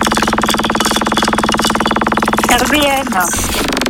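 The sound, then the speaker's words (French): A radio station's prize wheel spins with a loud, fast, even rattle of clicks, and a voice cuts in briefly near the end. “J'ai déjà mis en route cette roue RVM, histoire de la chauffer tranquillement.”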